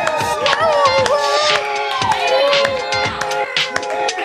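Live studio audience at a comedy show in Sacramento cheering and making noise on cue: loud whoops, high shouts and yells overlap in an excited, continuous din.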